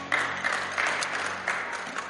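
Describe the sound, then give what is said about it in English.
A church audience applauds, a steady patter of clapping punctuated by a few louder bursts throughout. “Please, you may be seated and put your hands together for the Lord.”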